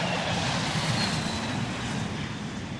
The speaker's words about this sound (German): Sie kommen im 3-Minuten-Takt. Flüger, die zu Abend von Süden und vor allem von Osten her zu Kloten landen.